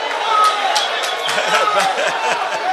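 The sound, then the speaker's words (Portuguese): Crowd noise from football fans protesting at Costa do Sol stadium, a steady loud roar with a commentator's voice running over it. “o público aqui à frente ao Costa do Sol reclama, e de que maneira”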